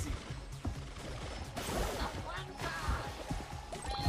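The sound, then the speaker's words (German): Walls smash apart in a video game, a dense, continuous mix of crashing debris, rumbling and sharp bursts with no break. “Ja, aber jetzt gleich gehen alle Wände kaputt.”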